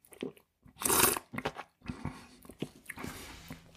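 Slurping and sipping of a Südtirol red wine from old vines, one loud airy slurp followed by several smaller wet mouth sounds and swishes, with no talking.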